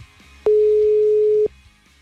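A single steady telephone tone sounds during an attempt to place an ordinary phone call. The flat, mid-pitched beep lasts about one second, with a clean start and cutoff over faint background noise.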